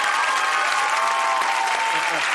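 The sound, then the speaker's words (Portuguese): Audience applause, a dense, sustained wash of clapping that stays loud and even from start to finish. “Vamos aplaudir.”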